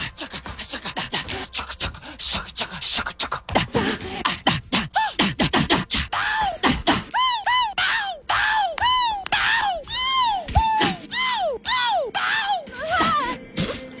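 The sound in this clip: Isolated lead vocal ad-libs from a pop song: many short, sharp yelps, gasps and grunting exclamations, followed by a run of quick swooping sung cries that rise and fall in pitch, with no backing music.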